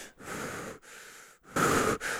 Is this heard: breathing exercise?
yes

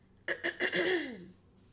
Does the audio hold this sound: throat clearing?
yes

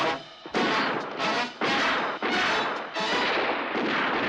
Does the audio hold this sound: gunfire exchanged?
yes

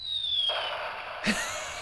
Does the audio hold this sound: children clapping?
no

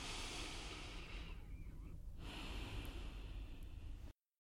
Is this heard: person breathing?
yes

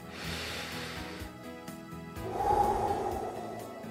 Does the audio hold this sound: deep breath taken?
yes

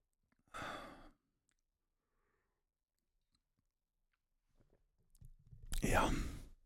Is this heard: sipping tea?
yes

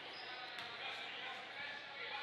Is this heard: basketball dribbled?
yes

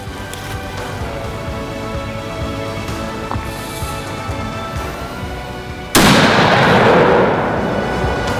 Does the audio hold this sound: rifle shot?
yes

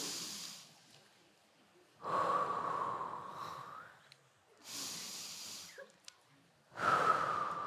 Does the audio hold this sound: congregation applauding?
no

